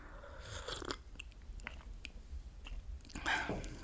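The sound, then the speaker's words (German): Someone sipping coffee from a cup, a few soft, wet slurping mouth noises that are quiet and brief, with no talking. “Apropos, weil ich gerade vom Kaffee gesprochen habe. Ich nehme mal kurz hier einen Schluck.”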